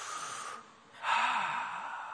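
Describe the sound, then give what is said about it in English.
A church audience taking a deep breath together at the benediction: a sustained airy rush, a brief dip, then a louder, fuller whoosh of breath with a faint low tone beneath. “Take a deep breath,”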